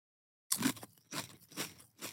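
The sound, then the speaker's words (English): Wasabi-flavoured avocado chips crunch as they are chewed, with four crisp, crackly bursts in a loose rhythm after a short silence. “crunching the chips. Here we go. We're about to do one now. Where the fuck's the avocado in that? Tastes like wasabi.”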